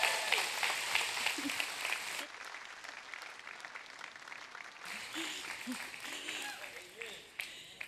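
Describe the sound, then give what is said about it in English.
Church audience applause welcoming a preacher to the stage: full clapping with voices heard over it, dropping to a quieter, sustained level partway through and then swelling slightly again. “I think it'd be awesome if you put your hands together and welcome my wife to the stage as she comes and preaches.”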